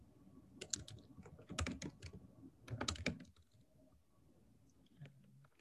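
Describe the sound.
Typing on a computer keyboard while writing a note: faint, rapid key clicks come in a few quick bursts, then taper into sparse taps and quiet.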